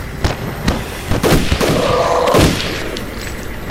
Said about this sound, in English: Nice shot, Vic!